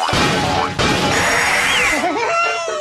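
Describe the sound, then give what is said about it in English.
Boxes smashed in a video game make loud, dense crashing bursts, with a sharp break near the start and another soon after, then a noisy tail. “Smash those boxes, baby! Backward smash for bonus points!”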